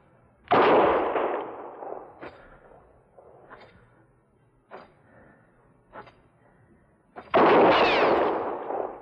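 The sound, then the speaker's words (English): Gunfire aimed at a marshal in a Western showdown: two loud, echoing shots frame a few sharper, fainter cracks and knocks between them, with no voices. “Next shot will go through your heart, Marshal.”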